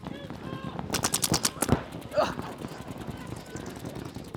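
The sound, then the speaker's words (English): A burst of rapid gunfire in a shooter video game: a quick run of sharp shots followed by one louder shot, then quieter noise, with voices talking. “Shoot this back left guy in his head.”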